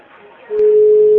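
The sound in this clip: A telephone line tone sounds while a call is being redialed: a steady single-pitch electronic tone starts after a quiet, murmuring opening and holds loud and unbroken to the end.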